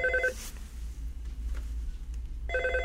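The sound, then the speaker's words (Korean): A telephone bell rings in two short bursts, one at the start and one at the end. A quiet gap with a low hum lies between them. “네 지금 전화벨이 울리네 빨리 받으세요 전화 좀”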